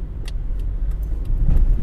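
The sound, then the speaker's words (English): Car engine and road noise in traffic as another vehicle tries to overtake on the left: a steady low rumble that swells toward the end, with a few light jangling clicks on top. “This guy's trying to overtake me on the left here.”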